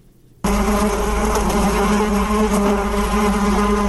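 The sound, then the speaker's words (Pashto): Honeybees buzz steadily while collecting nectar from flowers on a farm in Nangarhar province's Achin district, a loud, dense, continuous drone of many wings that starts abruptly after a brief quiet moment and holds without pause. “په وې کروندې کې له ګلانو د شاتو مچیو له لوري د شیرې راټولول”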